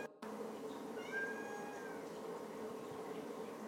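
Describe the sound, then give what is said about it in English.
A cat meowing in the background: one faint, drawn-out meow with a slight downward bend in pitch, heard over low steady noise. “I don't know if you heard my cat, but that was my cat meowing in the background.”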